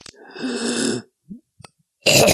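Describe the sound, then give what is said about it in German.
Dry coughing from a person with a high fever and a rattling chest. A long rasping burst is followed by a few small sounds, then another abrupt, loud cough at the end. “Bisschen trockener Husten”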